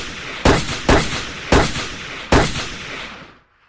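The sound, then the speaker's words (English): Four loud gunshots from a single gun, fired at uneven intervals, each sharp crack followed by a long decaying echo before silence. “Chapman goes into a combat stance and fires 5 bullets, 4 of which went into John.”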